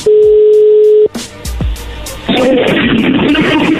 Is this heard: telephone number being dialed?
yes

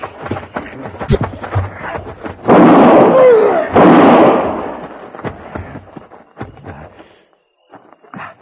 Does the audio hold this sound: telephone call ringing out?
no

